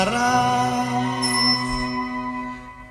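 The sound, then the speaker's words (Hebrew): A bell rings once with a bright, sustained metallic tone full of overtones that slowly fades over about three seconds, alone with no talk. “הפעמון מצלצל, צלצל”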